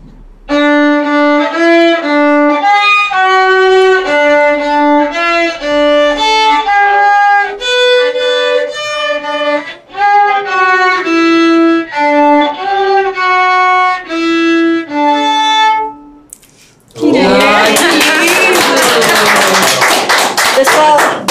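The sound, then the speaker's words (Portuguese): A violin plays Happy Birthday, performed by a player who bought the instrument only a month earlier. A steady run of sustained, bowed notes lasts about sixteen seconds, then a short pause, then loud clapping breaks out. “com uma música que é o famoso Parabéns para você, tocada pelo violino.”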